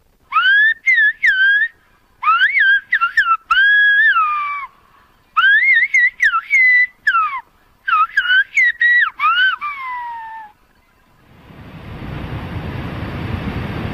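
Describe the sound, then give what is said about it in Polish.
Silbo, the whistled language of La Gomera in the Canary Islands: several groups of loud, high whistled phrases with gliding, bending pitch, followed by a swelling surf-like rush of noise. “The whistling sound you just heard is a language that's thousands of years old. It's native only to a small island off the west coast of Africa called La Gomera.”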